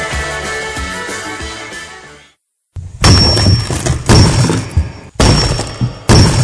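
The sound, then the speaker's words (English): A rock-cracking sound effect: after a stretch of music and a brief silence, a few loud, heavy crashing bursts follow, each booming and splintering. “And that's the first sound of rock cracking in 2013.”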